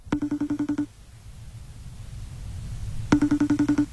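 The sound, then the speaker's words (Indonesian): A telephone rings in two bursts of rapid, buzzy pulsed tones with a pause between them. “Siapa lagi telepon?”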